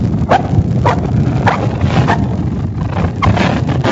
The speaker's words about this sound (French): c'est le bruit des pas sur le sable de la plage, ce n'est pas un chien.